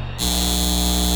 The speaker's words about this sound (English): This is the sound of a data center taking your water and driving up your utility bills.